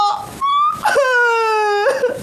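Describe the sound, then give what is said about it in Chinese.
Sobbing wail from a person crying in distress, a loud, drawn-out moaning voice with held, wavering tones that step between pitches, continuous and strained. “你怎么还哭上了？你别哭啊！”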